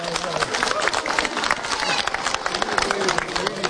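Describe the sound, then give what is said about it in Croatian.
Applause greets kindergarten children from the Montessori preschool Mali princ in Pazin after their dance Rašpa: dense, brisk clapping with steady crowd murmur and voices underneath, holding even throughout. “Nagradite i njih jednim velikim pljeskom.”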